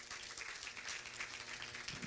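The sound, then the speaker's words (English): Applause from a church audience clapping hands in praise during a service: dense, steady clapping at an even loudness from start to finish. “Let's give the men of God a hand clap of praise.”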